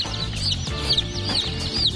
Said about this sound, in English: I'm sexing chicken. Yeah. I'm separating the male and female.